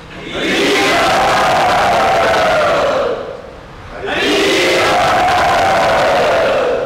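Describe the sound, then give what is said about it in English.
A crowd loudly chants "Hari Bol" together to welcome a guest. There are two long, sustained collective chants, each loud and full, with a brief dip between them. “So I'd like you to all welcome our dear friend Pancharatra Prabhu by very loudly chanting Hari Bol.”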